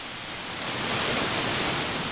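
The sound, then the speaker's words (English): Spring water flows out of the earth and disappears into lava rocks in Oregon, making a steady, even rushing hiss that swells slightly partway through. “Water coming in from its most pure source, right out of the earth, and disappearing right into the earth.”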